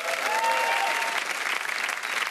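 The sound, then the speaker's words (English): Audience applause greets a Commonwealth Games gold medal boxing champion as she is welcomed onto a show: dense, loud, steady clapping that holds evenly for the whole stretch. “How about a Commonwealth Games gold medal boxing champion, Skye Nicholson? Give it up for Skye,”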